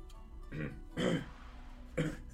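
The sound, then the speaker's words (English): Throat clearing, three short rough bursts of a rasping, guttural sound separated by brief pauses, fairly quiet with no talk over them. “Do you have something in your throat?”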